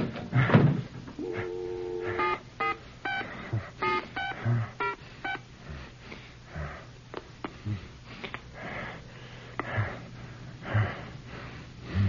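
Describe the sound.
A telephone is dialed: many quick electronic key tones, some in short bursts, mixed with clicks and handling noise over a steady low hum, fairly faint throughout.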